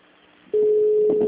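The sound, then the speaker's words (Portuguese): A telephone busy signal switches on abruptly after a brief soft hiss, a steady mid-pitched tone that holds loud and alone to the end. “Chamada sobre ocupado.”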